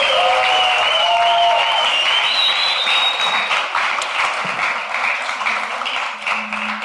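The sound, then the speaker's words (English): Audience applause greeting guests as they are welcomed, a loud, dense wash of many clapping hands that holds steady and then slowly thins out toward the end. “So let's put our hands together as we welcome Beth and Maybe.”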